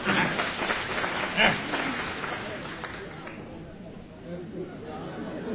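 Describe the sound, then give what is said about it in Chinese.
Audience applause at a stage show: dense, loud clapping for about three seconds that then fades, leaving quieter crowd chatter. “那太好了，各位鼓鼓掌，让咱来了易中天怎么样？”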